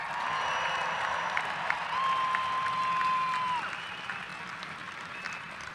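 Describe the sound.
Audience applause and cheering after young speakers and dancers perform at an Australia Day event: steady, fairly soft clapping from a crowd that swells slightly in the middle, with a thin sustained tone partway through.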